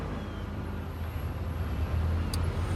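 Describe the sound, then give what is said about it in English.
Car driving: a continuous low engine and road rumble, steady and moderately loud, with no talk. “Wes, you think you could drive any faster, man? This is like granny style.”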